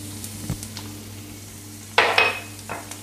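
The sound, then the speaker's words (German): Chopped onions sizzle as they hit a little olive oil in a hot frying pan. A few sharp hissing bursts rise, then fade quickly, over a steady low hum. “Da kommen jetzt ups, die Zwiebeln rein.”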